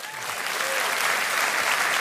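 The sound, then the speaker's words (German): Audience applause fills a radio award ceremony. Dense, even clapping from a crowd swells slightly at the start and then holds steady and sustained without a break. “Applaus, Applaus, Applaus.”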